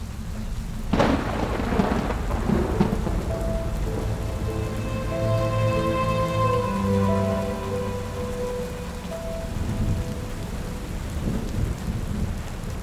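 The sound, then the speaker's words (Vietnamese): Heavy rain with thunder pours down at night over a busy street: a steady, loud downpour hisses throughout, and a sharp thunderclap near the start breaks into a long low rumble. “những cơn mưa nặng hạt bên ngoài cứ ồ ạt lao xuống dòng người tấp nập mà chẳng có dấu hiệu dừng, mang theo từng đợt sấm chớp dữ dội”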